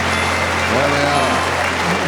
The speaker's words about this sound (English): singing Das Wandern ist des Müllers Lust with all of Hull clapping along in time.